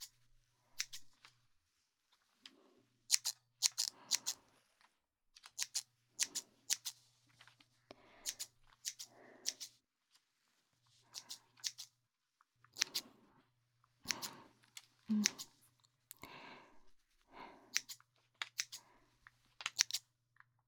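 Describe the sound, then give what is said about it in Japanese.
Scissors snip through hair during a haircut, many short, crisp clicks falling in irregular clusters with brief pauses between them, quiet and with no talk. “いっぱい切るから、終わったらさっぱりするぞ。”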